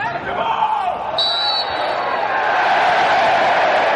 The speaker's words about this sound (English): A sound not heard in English football stadiums since the coronavirus pandemic began. Brighton welcomed back fans at the Amex Stadium for a friendly against Chelsea, which ended in a 1-1 draw.